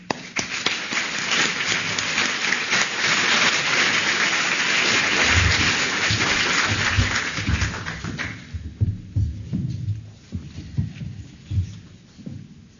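Audience applause welcoming a lecturer to an evening lecture: dense, sustained clapping holds steady for about eight seconds, then breaks off into quieter, sparser sounds.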